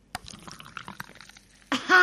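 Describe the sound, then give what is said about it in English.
Carbonated soda poured into a cup held right at a microphone: sparse crackling fizz and tiny pops, then a louder rushing pour near the end. “It's carbonated, as you can tell. That sound may actually be a better experience than having the soda, since it's treat yourself. It is a really good sound. No, pour it into the mic. You must pour it into the mic.”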